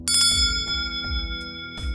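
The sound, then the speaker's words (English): A mobile phone rings with an electronic tone of bright, bell-like notes that repeat a few times in a short pattern, fairly loud and heard alone. “Your phone. The chief is calling.”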